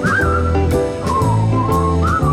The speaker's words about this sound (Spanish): Aunque al final solo puedas silbar.